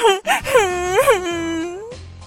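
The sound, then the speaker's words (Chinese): Tearful wailing from a person crying in distress in a drama. The voice swoops up and down in a few sobbing rises, then settles into a long, drawn-out quavering tone before breaking off. “不要担心了，不哭了啊！”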